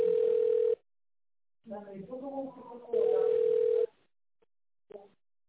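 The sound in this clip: A telephone line plays its ringing tone while a call is being connected: two long, steady, even tones separated by a pause in which a voice talks, then a brief faint blip.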